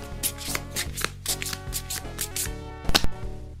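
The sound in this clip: Playing cards are shuffled and dealt during a card game: a few quick papery flicks and riffles, then a louder rattling burst near the end, all over steady background music.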